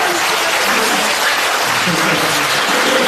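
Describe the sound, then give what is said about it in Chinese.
A large audience at a stage show gives loud, sustained applause, a dense, even roar of many hands clapping continuously from start to finish. “现在掌声已经达到800人的想象了。掌声！”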